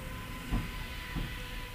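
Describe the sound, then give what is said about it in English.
A passing train makes a steady, low rumble with two heavy, dull clunks spaced well apart, moderately loud and even throughout. “That was the train. That was a very audible terrifying train. That was like the Phantom Train.”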